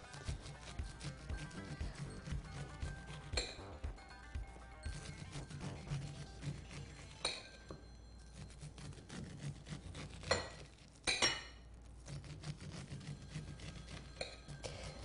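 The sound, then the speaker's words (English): A serrated knife saws kernels off an ear of corn into a bowl: faint, steady, rasping up-and-down strokes broken by a few sharper scrapes. “use a serrated knife. You want it almost like a saw. If you use a straight edge knife, it's not going to work as well. And you just saw your corn up and down like that until it falls off.”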